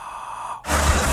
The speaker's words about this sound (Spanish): ahí le va mi aliento, mira, ahí le va mi aliento